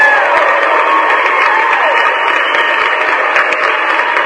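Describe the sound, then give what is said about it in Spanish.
Applause from a crowd, mixed with some cheering, runs as a steady, dense wash of clapping from start to finish with no pauses. “Entonces, pues un saludo muy afectuoso, van aplausos por supuesto.”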